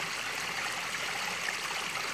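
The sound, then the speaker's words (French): Water flows in a stream with a soft, steady rushing hiss, even and continuous throughout, with no other sounds. “à vous laisser porter par le bruit de l'eau”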